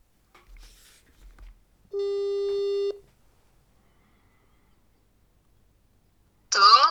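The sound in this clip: A telephone ringback tone plays as an outgoing call waits to be answered: one steady, buzzing tone lasting about a second, followed by silence. A brief voice comes in at the end.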